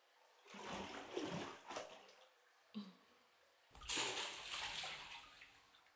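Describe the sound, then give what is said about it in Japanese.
Hot water poured over someone sitting in a bath, splashing and sloshing in two main gushes with a brief splash between them. The pouring is quiet overall. “じゃあ、まずはお湯をかけて。”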